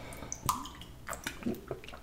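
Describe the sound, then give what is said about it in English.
A person sipping water: a few soft, wet sips at irregular moments, quiet throughout. “I had to sip some water.”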